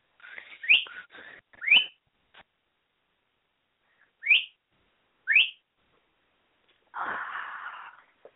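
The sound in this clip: A pet bird screams in a run of short, sharp, rising screeches, several spaced apart, then ends with a longer, harsher squawk. No one talks.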